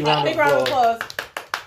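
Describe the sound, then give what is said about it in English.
A few sharp hand claps from an audience start up right after a person finishes talking, the first light applause following speech. “big round of applause.”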